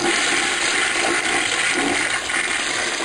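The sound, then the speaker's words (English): A toilet flush played as a sound effect from a button: a loud, steady rush of water that fills the whole clip without a break. “Press the dump button, it plays a toilet flush. I just figured it was appropriate.”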